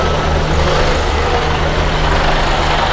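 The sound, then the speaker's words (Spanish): Heavy 25-ton trucks give off a continuous low engine rumble with broad road noise, loud and unbroken from start to finish, with no voices. “estos son los camiones de 25 toneladas”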